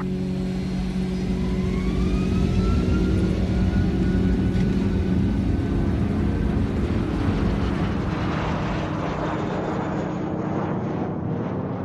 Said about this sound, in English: Cabin crew, please prepare for takeoff.